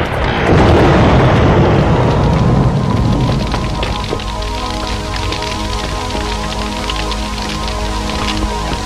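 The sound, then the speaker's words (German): Dense crackling and roaring of a hacienda and barn burning in a fire, loud and continuous, with a heavy low rumble for the first few seconds that then thins to a steadier hissing crackle. “Pico, Feuer! Die Hacienda! Die Hacienda brennt!”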